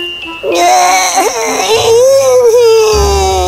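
A baby girl cries in a loud, continuous wail that wavers up and down in pitch for several seconds.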